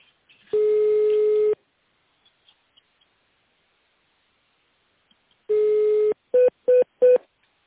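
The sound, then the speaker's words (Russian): Touch-tone keypad beeps dial an extension number on a company phone line: one long tone, a pause, a second long tone, then three short, quick beeps, with no voices. “Наберите в тональном режиме внутренний номер вызываемого абонента, либо дождитесь ответа секретаря.”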